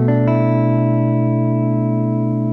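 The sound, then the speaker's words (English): A guitar chord strummed across the 6th to 2nd strings, with the 5th string muted, rings out as one bright, sustained, fairly loud chord that holds steady. “So when I strum the 6th through the 2nd string, it will sound like this.”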